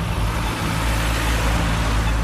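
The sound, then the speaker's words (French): Traffic on a city street in Namur, Belgium, crowded with cars: a loud, continuous roar of passing vehicles over a deep engine rumble, with no voices. “La ville, c'est circuler, y a rien à voir. Trop de bagnoles.”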